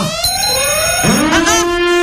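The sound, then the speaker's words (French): An alarm goes off with a loud, steady, buzzy electronic tone rich in overtones; partway through, a lower tone slides upward and then holds alongside it. “C'est l'alarme sérieuse, hein.”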